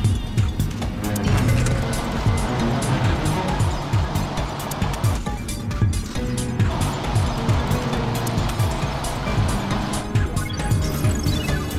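A dark grey jeep drives along a highway, its engine and road noise forming a loud, steady rumble that runs through the whole clip with little change.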